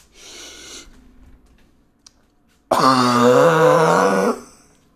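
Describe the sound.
A slow, deep-inhale cough demonstrated as a breathing technique: a soft breathy intake of air, then a long, loud, voiced groaning exhale with a wavering pitch that ends abruptly.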